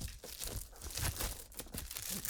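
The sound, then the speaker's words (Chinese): Crinkling, tearing noise of the outer packaging being ripped open on a cardboard box, a steady run of papery crackles and rips lasting throughout at a fairly quiet level. “先把这个外包装撕开，就是一个纸盒子。”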